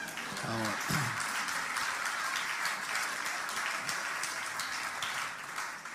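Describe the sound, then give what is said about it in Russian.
Applause from a church audience after a pastor's service, a dense and steady wash of clapping that holds at an even level for the whole stretch. “Здесь могли бы быть ваши аплодисменты, не переводи.”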